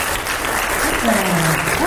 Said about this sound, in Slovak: Máte 20 bodov hneď a teraz aj tlieskajú vám okamžite.